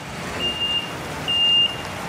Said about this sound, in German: Auf dem Werksgelände fährt ein 40-Tonner vor, dort wo Fertigblöcke aus dem Recyclingbeton aufgeladen werden können.